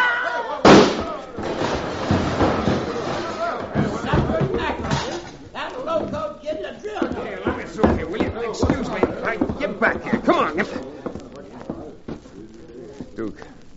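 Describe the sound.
A single sharp, loud gunshot cracks out during a fight over a card game, followed by people talking.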